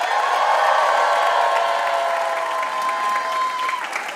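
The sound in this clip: Applause and cheering from a festival audience welcoming a guest on stage, with lively clapping mixed with shouted whoops and cheers that hold strong before tapering a little at the end.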